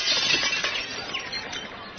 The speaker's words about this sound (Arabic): ما هذا يا أولاد، ما هذه الألعاب؟ كسرتم زجاج النافذة.